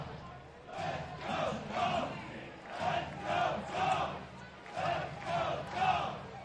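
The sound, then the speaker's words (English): A crowd of River Dogs baseball fans at the Joe cheers and chants in rhythmic surging swells of voices, rising and falling steadily throughout. “Still nearly the full crowd of River Dog fans here at the Joe tonight. They have not left.”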